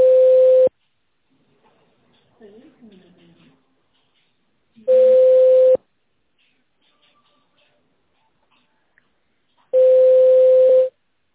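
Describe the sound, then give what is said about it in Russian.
A telephone line tone plays while a call connects: three long, steady mid-pitched beeps come about five seconds apart, with near silence and faint murmurs between them. “Соединение устанавливается. Пожалуйста, оставайтесь на линии.”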